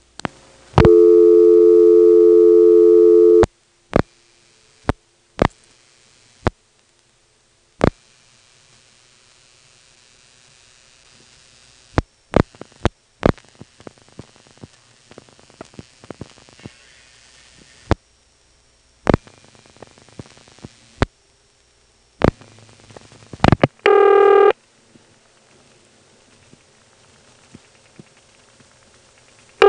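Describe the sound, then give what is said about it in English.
Telephone call-supervision signals on a call carried over a wire trunk to a tandem office and on to Weeksville: a loud steady tone, then many sharp isolated clicks and pops over faint hiss, and a short loud multi-tone burst near the end. “On this next call to the Weeksville supervision test, we get a wire trunk to the tandem and then from the tandem to Weeksville. This leads to some rather sloppy sounding supervision.”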